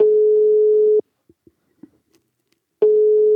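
A telephone ringback tone sounds on an outgoing call to a guest: a loud, steady, low-pitched tone, then a gap of near-silence with a few faint clicks, then the same tone again.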